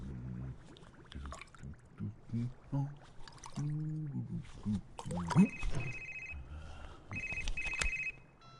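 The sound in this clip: Telephone ringing during a call, heard as two short high-pitched ring bursts late on, after faint talk and scattered low sounds.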